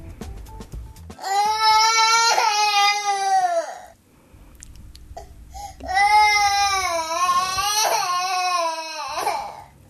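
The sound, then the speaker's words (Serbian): A baby cries in two long, loud, wailing bouts separated by a short pause. The tone is strained and strongly tonal, wavering in pitch within each bout. “Kako je ovo dete? Da li je besno, tužno, nevaljalo? Kako biste rekli da plače?”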